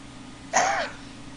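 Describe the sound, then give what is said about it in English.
A single brief, raspy cough or throat-clearing from someone whose voice is strained from yelling. It stands alone, with no talk around it. “sorry about my coughing because I yelled”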